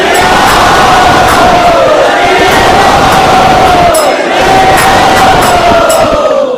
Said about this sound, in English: So I would like to welcome His Holiness Jai Advaita Swami Maharaj by loudly chanting three times.